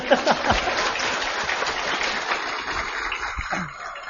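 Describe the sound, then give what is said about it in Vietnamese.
Audience applause during a Buddhist dharma talk, a dense pattering of many hands that stays fairly even before thinning out toward the close. “Vỗ tay đi.”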